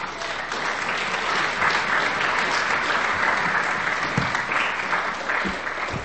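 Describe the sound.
Applause from a church audience welcoming a pastor to speak: dense, steady clapping holds at an even level for about six seconds, with no voices heard over it.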